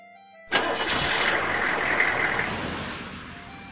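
Vehicle engine starts at once with a sharp catch, then settles into a steady rumbling idle that fades slightly toward the end.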